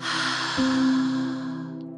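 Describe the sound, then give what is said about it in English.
A slow, deep breath drawn in and let out, heard as a soft airy hiss during a calming guided relaxation, with a low steady tone sustained beneath it. “Just need you to take a deep breath, inhale, and exhale with me.”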